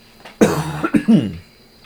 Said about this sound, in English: That was me coughing away from the microphone, though.